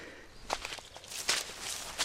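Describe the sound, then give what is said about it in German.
Footsteps squelch along a flooded, swampy hiking path in hiking boots, a few soft, uneven steps sounding as separate bursts over a low, quiet background. “Der ganze Weg ist überflutet. Oh, ist das ein Sumpf. Gut, dass wir Wanderschuhe anhaben.”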